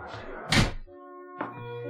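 A door opens with a heavy, dull thunk in a dramatized scene where an immigration agent enters. A steady, low, sustained tone with a soft swell follows.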